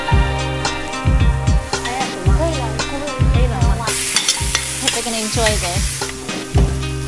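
Spring onions and sugar stir-fried in a wok with soy sauce for Sichuan twice-cooked pork. Loud, continuous sizzling is broken by many rhythmic stirring scrapes and clanks.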